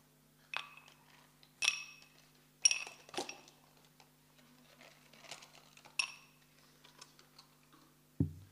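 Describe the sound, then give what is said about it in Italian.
A drinking glass and a small wrapped package being handled: several sharp, ringing glassy clinks and light taps come at uneven intervals, with faint rustling between them and a low thud at the very end. No talking. “Prendo di nuovo questo bicchiere e questo pacchettino sorpresa.”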